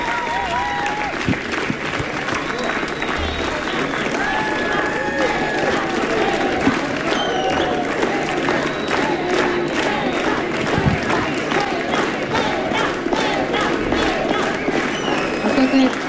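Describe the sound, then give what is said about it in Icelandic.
An audience applauds and cheers for two performers, long, loud, sustained clapping mixed with whoops and crowd voices, and a voice speaking through it. “Gefið þið Agnari Birgisteini og Jóa Hjöl gott klapp.”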